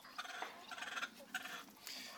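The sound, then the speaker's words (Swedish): Hens in a henyard giving a few soft, short clucking calls, faint and scattered unevenly over a quiet background. “De älskar att sola hönor så de vill gärna ha en hönsgård i ett soligt läge.”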